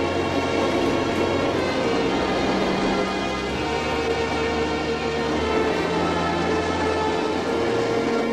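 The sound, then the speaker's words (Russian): A passenger train crosses a bridge after passing a train standing on another track, a continuous heavy rumble and rattling clatter at an even, loud level throughout, with no voices. “Поезд проезжает мимо состава, стоящего на другом пути. В вагоне сидят люди. Поезд едет по мосту.”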